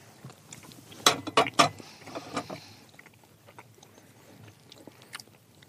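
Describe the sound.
Chewing a small piece of baked good with cinnamon: three crisp, loud bites close together, then a few seconds of softer, fainter chewing.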